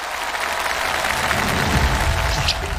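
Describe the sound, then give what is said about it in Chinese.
Applause from an audience welcoming young acrobatic performers from Wuqiao: dense, steady clapping that stays loud and unbroken throughout. “接下来让我们把时间交给吴桥的小师傅们，掌声欢迎。”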